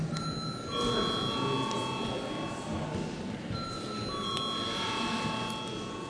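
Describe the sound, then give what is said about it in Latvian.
An electric bell rings in a parliament chamber ahead of a vote, a continuous metallic ringing held at a steady level throughout over a noisy, rushing background. “lūdzu zvanu”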